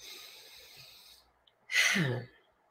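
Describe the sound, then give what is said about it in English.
A person taking a deep breath during a relaxation exercise: a soft, airy intake of breath, a short pause, then a louder exhale that falls into a low, sighing tone before it fades. “So everyone just have a few deep breaths, as I will as well.”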